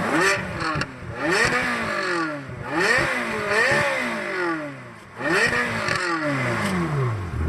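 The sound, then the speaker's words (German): A Ferrari car engine revving hard, its loud growl repeatedly sweeping up and down in pitch through several throttle blips, heard alone with no talk. “wenn ich jetzt Ferrari sage, dann müssten Sie doch eigentlich sowas hier im Ohr haben, ne? Lass mal meinen an hier, Moment. So, und jetzt drauftreten.”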